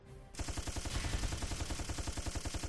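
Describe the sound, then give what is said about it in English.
Rapid gunfire from a video game weapon starts after a brief quiet moment, then runs as a long, unbroken burst of many quick, evenly spaced shots at a steady, loud level. “Let's just fire our gun.”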